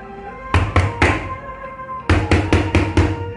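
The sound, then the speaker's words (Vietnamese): Loud, heavy knocking on a door: three solid blows, a short pause, then a longer run of quick, thudding knocks with a deep, booming body. “Thế Long và Duy Minh đã bị cái tiếng đập cửa rất lớn đánh thức”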